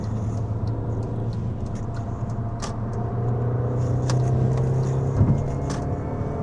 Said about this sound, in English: Can you hear it? Yeah. I love the sound of the supercharger in the Mini.